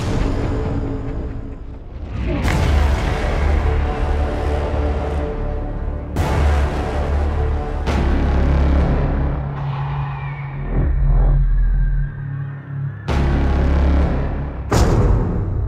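Movie trailer horns, the blaring sound built from an Edith Piaf song, cut together as a montage: several massive, deep brass blasts, each held as a sustained low rumble before the next abrupt hit.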